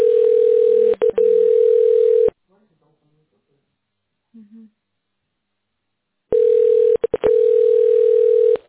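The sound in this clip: Telephone ringing tone on a call that goes unanswered: a steady, mid-pitched, buzzy tone sounds for about two seconds, breaks off into a silent pause of roughly four seconds, then returns for another long ring.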